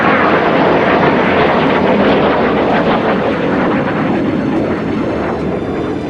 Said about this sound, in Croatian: Borbeni avioni F-16 pod kontrolom pučista počeli su da lete nisko iznad Ankare s ciljem da zastraše narod.